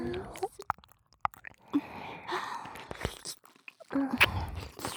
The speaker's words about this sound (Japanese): この右耳を、私が気持ちよく舐めて